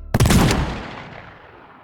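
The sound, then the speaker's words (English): Gunfire erupts in one sharp, loud blast and fades into a long, ringing tail. “he soon found both homunculi aiming their guns at his head. The confusion was replaced by a scarlet eruption as they both fired.”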